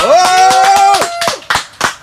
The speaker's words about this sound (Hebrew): שפו כפיים לחמי.